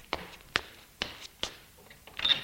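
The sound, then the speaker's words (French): Someone knocks on a door: four sharp, evenly spaced raps, followed by a few softer, scattered sounds. “L'on frappe à la porte.”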